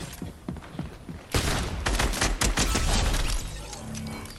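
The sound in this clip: Rapid gunfire in the video game Fortnite: a dense fusillade of many sharp, loud shots in quick bursts, preceded by a few quieter pops and trailing off at the end.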